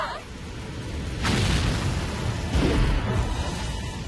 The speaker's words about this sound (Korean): 3! 2! 1! 발사!